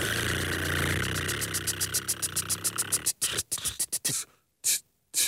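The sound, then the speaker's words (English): A prize wheel spun on a game segment, its clicker ticking rapidly at first, then slowing as the ticks spread farther apart, ending in a few isolated clicks. “Let's spin the wheel. All right. Spin the wheel.”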